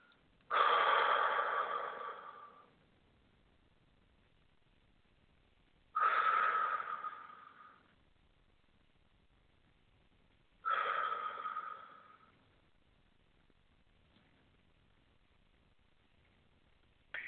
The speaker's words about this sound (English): Three nice deep breaths.